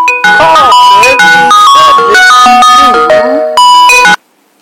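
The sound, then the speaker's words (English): A phone rings with an incoming call, playing a loud electronic ringtone melody of many quick, bright notes that runs for about four seconds and then stops abruptly. “I'm getting some phone calls in, and I do apologize there”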